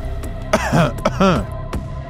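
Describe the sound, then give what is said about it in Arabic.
A run of several harsh, rasping coughs comes in short, uneven bursts, some with a hoarse, throaty voiced edge, fairly loud and alone with no talk. “صوت الكحة اللي جاي من قرايا فوقني”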